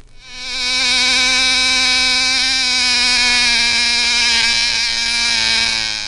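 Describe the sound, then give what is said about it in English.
A bug buzzes in a loud, steady, reedy drone with a rich, even tone. It fades in quickly, then holds at an unchanging pitch for about six seconds with no other sounds. “What kind of a bug do you suppose makes a sound like that? Can you buzz like that too?”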